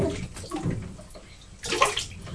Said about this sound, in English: Right, shall I do your hair now? I'm wetting it, sir.